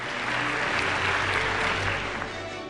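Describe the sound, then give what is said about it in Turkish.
Applause at an academic thesis award ceremony as winners in a health and sport sciences category are invited on stage: a sustained, even wash of clapping from a large audience, steady in loudness from start to finish. “Alkışlarımızla kendilerini sahneye davet ediyoruz.”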